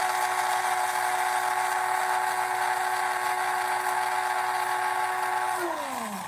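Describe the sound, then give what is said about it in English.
An electric coffee grinder grinds seeds with a loud, steady motor whine and buzzing tone. Near the end the pitch drops as the motor winds down. “coffee grinder, and we're going to grind it. We're going to grind it for maybe 10 or 15 seconds.”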